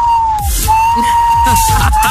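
A siren that sounds like submarine sonar holds a loud, steady high tone, dipping briefly twice, over a rumbling low background.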